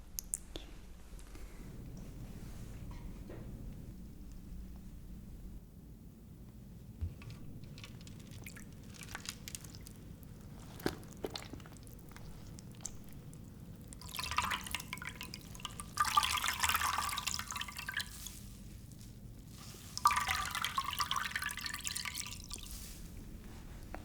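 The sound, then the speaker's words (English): A towel is wet with water: faint drips, clicks and soft squishing come first, then louder bursts of trickling, splashing water and damp squelches in the second half. “Let me just wet some towel and cool you down a little bit.”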